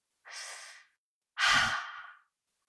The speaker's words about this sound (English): Let's take a collective deep breath after that.